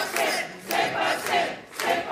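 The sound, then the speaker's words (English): A crowd cheering and shouting at an election-night party for Quebec separatists watching results come in. The roar swells and dips in four loud surges, like rhythmic chanting. “Celebrations at a party for Quebec separatists. They're watching election results come in on October 5th, 2026.”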